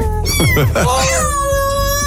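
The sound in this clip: A pet cat meowing: a few short chirping calls, then a loud, drawn-out meow held at a steady pitch with rich harmonics.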